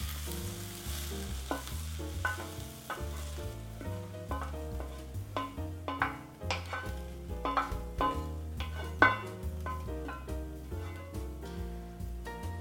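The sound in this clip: Kale sizzles in olive oil in a small pan as it is stirred, a steady frying hiss with occasional scrapes, over music playing in the background.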